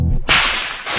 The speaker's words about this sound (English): is a whip. The sound you just heard was literally a sonic boom